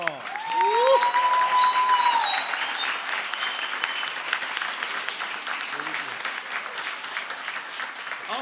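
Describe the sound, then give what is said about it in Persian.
Audience applause for the musicians at the second show of a concert: loud clapping with a few rising whistles in the first seconds, then steady clapping that carries on with voices faintly underneath. “به افتخارشون بیاییم ما دست بزنیم.”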